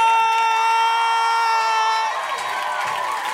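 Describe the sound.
Loud crowd cheering and whooping as a late-night comedy host is introduced in New York City. A sustained high tone rides over the roar for about two seconds and then breaks off, leaving rougher shouting and applause.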